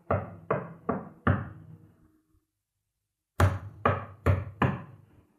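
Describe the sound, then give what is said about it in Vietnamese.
Knocking at night: two bursts of four sharp, evenly spaced knocks, separated by about two seconds of silence. Each knock rings briefly before fading. “Ông ta định trở vào giường ngủ tiếp thì tiếng gõ lại bắt đầu vang lên.”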